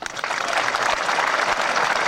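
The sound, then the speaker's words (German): Applause in front of the White House at the Oslo Accords signing ceremony with Arafat and Rabin; a dense, continuous wash of clapping from many hands, steady and loud throughout. “Die drei, also vor dem Weißen Haus, Applaus, Reden, dann Stille.”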